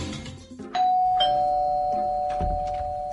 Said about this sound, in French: Je vous ai déjà dit de ne pas sonner. Quand vous sonnez, ça me fait sursauter. Mais madame, si je ne sonne pas sur la sonnette, comment vous savez que je suis devant chez vous?